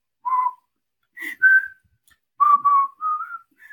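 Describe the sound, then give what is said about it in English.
A person whistling through narrowed lips, producing several clear, pure short notes in a simple melody, separated by brief pauses and shifting slightly in pitch, heard alone with no talking. “How do you whistle? You whistle by narrowing your lips to blow the air out.”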